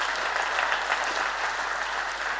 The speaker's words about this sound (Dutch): Zullen we haar eens even geweldig applaus geven?